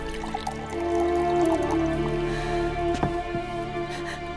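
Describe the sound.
Water poured into a drinking glass: a soft trickle ending in a couple of distinct drips, over a sustained tonal background.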